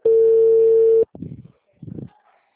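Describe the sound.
A telephone tone sounds after a call is hung up: one loud, steady, even-pitched tone lasting about a second, followed by two short bursts of voice.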